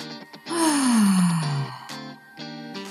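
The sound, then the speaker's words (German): Forceful exhale after a held breath during a breathing exercise: a long, voiced out-breath that slides steadily downward in pitch, followed by quieter breathy sounds, all over soft, steady background music. “Luft anhalten. Spannung fühlen. Und kraftvoll ausatmen.”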